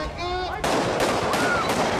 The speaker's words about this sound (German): als plötzlich Schüsse fielen.